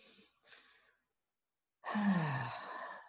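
A deep breath during a guided meditation: soft breathy sounds, a short silence, then a longer, louder sighing breath with a faint voiced tone.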